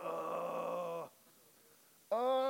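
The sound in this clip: A person groaning wordlessly in prayer: a long, steady, voiced moan of about a second, a short near-silent pause, then a second moan that begins and runs on at a somewhat higher pitch.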